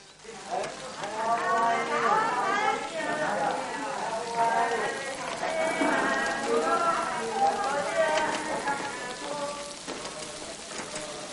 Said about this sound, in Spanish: Llueve.